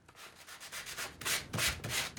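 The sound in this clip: Sandpaper rubbed over the painted surface of new upholstery leather to give it a distressed look, producing a few soft, rough rasping strokes that grow louder toward the end.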